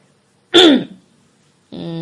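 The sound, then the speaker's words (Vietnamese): A man clears his throat once in a short, gruff burst, followed after a pause by a voice starting to speak. “Ái Lì gượng gạo thì nghe Duy Thành hắng giọng.”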